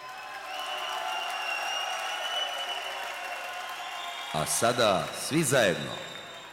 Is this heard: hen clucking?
no